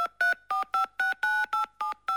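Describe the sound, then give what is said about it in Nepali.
A telephone number is dialed as a quick run of many short keypad tones, each a clean two-note beep with brief gaps between. “ल म phone लगाइदिन्छु, आफै कुरा गर त।”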